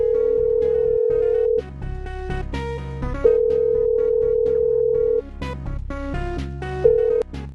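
A telephone dial tone sounds after a call disconnects: a steady, loud, mid-pitched tone in three stretches, long, long, then brief, broken by other busy sounds in between.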